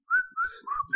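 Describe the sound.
Someone whistles a song's melody alone: four clear, bright notes in quick succession, the third slightly lower and the last higher.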